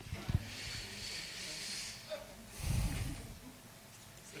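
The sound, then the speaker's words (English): A voice imitates heavy breathing after an intense workout, with faint, breathy hissing breaths and a deeper, louder gasping breath near the end. “Man, after an intense workout, when you're like, and then you can just, you begin to take in breath.”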